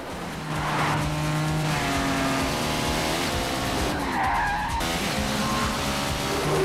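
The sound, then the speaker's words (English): Race car tires squeal and skid as high-powered cars swerve through a narrow gap between large trucks, a continuous loud screech over droning engine noise. “Unable to follow, Santiago swerves until one of the trucks drops back, creating enough room for the car to pass by.”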